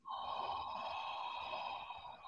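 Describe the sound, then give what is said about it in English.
A heavy, forceful exhale, breathed out in a rasping, mask-like style during a mindfulness breathing exercise, forms a steady, breathy rush that holds for about two seconds with no talk over it. “I want you to release it like Darth Vader style. Like, okay, breathe in. Exhale.”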